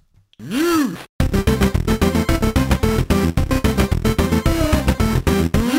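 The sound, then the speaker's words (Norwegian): A short jingle plays: an opening swooping tone, then a steady rhythmic beat with bright melodic notes repeating to the end. “Jeg tror rett og slett vi tar en liten jingle, altså. Ja, la oss gjøre det.”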